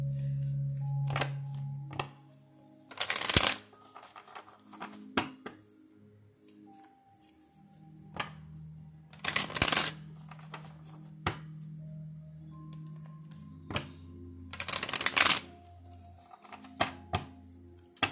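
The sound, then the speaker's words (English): A goddess oracle card deck is shuffled in three brief, papery bursts spaced several seconds apart, with soft knocks and thuds and a low hum between them. “These are not playing cards. This is an actual a goddess oracle deck that I purchased.”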